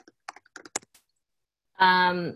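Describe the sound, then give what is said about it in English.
Typing on a computer keyboard: a quick, uneven run of light key clicks, then a short pause before a voice starts speaking. “So I'm going to type that in there in case anybody wants to look it up.”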